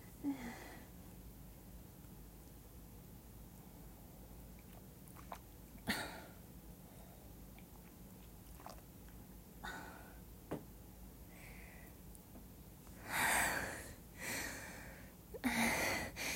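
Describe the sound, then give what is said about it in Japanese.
A person drinking water stays nearly silent at first, then a few soft swallows and breathy exhales come through near the end. “ちょっとお水飲みます。”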